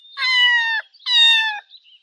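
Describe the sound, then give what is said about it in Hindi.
A cat meows twice, two loud, drawn-out, bright calls of similar length separated by a short pause, each rich in harmonics, with a faint chirp trailing the second. “Cat, cat.”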